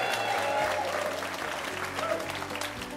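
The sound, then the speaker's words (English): Audience applause at a live evening show at the Museum of Commerce in historic Pensacola Village: steady, dense clapping from a crowd that holds at a fairly even level. “What a great audience we have. Give yourselves a big hand once again.”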